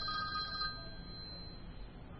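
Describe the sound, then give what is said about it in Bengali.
A telephone rings faintly and without a break, its thin electronic tone running the whole clip over a low background rumble. “প্রথমবার ফোনটা বেজে বেজে”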